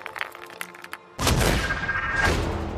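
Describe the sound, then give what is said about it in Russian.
A hand grenade thrown into a rock crevice among trees explodes. After a stretch of faint clicking, a sudden loud blast breaks into a sustained, noisy roar. “Достал гранату, дернул чеку и бросил в середину.”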